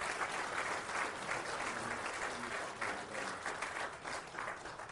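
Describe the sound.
An audience claps steadily to welcome a guest speaker at an evening gathering, dense and even applause that holds a fairly constant level for the whole stretch.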